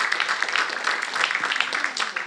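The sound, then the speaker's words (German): Audience applause at a live event, a dense, even patter of many hands clapping steadily throughout, with a few voices mixed in. “Nochmal großen Applaus.”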